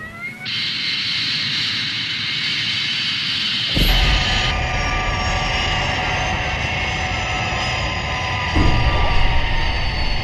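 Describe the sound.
Jet engine whine and roar of the Fireflash aircraft in flight. A sustained high-pitched whine sits over a broad rumble, jumps louder about a third of the way through, and surges again near the end.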